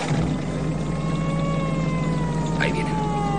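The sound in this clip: Police cars passing on a nearby road: steady tonal wails that glide slowly downward over a constant low rumble, with a brief higher chirp near the end.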